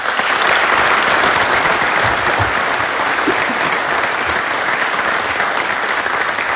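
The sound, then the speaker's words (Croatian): Strong applause from an audience saluting award recipients at a ceremony, with full, unbroken clapping sustained at a steady level for several seconds. “Molim vas da još jednim snažnim pljeskom pozdravimo sve nagrađene.”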